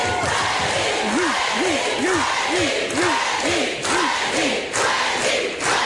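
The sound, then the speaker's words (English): Crowd cheering and chanting a name in a steady rhythm: about eight shouted calls rise over a dense, continuous roar of voices. “Wow, I don't even get cheers like that.”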